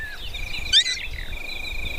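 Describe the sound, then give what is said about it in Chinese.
High, thin begging calls of three hungry nestlings asking their mother for food at the nest: a steady piping tone with one brief, louder chirping burst partway through, over a low background rumble. “当一位捕食者经过他们的巢穴时，他们正在向妈妈索要食物。”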